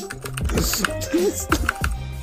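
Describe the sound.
Typing on a computer keyboard during a game: a quick, uneven run of clicky keystrokes, with several louder taps among the softer ones.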